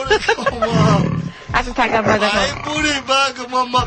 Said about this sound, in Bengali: তুই বাঘের সাউন্ড বাজাবি না